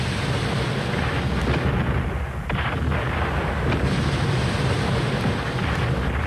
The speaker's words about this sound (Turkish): Kaleden atılır bu toplar.